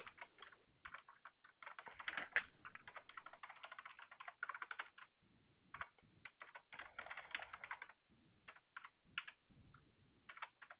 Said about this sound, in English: Give me just a moment to get this typed up.